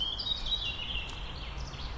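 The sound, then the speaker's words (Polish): Birds singing in a forest, heard as bright, high chirping and warbling phrases over a steady low background hiss. “Przyszłam do lasu, żeby przejść się, podychać świeżym powietrzem. Słucham tylko śpiewu ptaków.”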